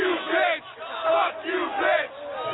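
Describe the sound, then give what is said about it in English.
Rowdy studio audience yelling and jeering, with loud crowd shouts rising and falling in several surging waves of overlapping voices. “That's the studio audience. The studio audience getting rowdy. They didn't like that guy.”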